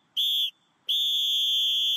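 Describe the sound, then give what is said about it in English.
A referee's whistle blown at halftime gives two shrill, steady blasts, a short one followed by a longer sustained one, each holding an even high pitch. “See how quiet that is? See how quiet that whistle is, guys?”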